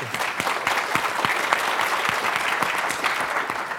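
Audience applause thanking the Content Watch Net Nanny presenters: dense, steady clapping from many hands that holds at an even level throughout.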